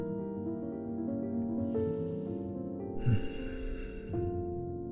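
A gentle breath in and out during a guided meditation for anxiety: a soft, airy inhale followed by a slightly longer exhale, heard faintly over a sustained calm musical drone, with no speech.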